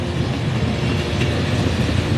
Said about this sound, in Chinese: 每天的高峰时刻，60000多码农进出于这个北京最繁忙的地铁站。